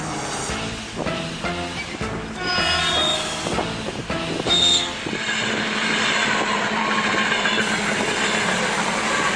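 A locomotive approaches on a railway track on the outskirts of Krasnodar. A loud, steady rumble builds, mixed with rattling wheel clatter and brief high wheel squeals near the middle.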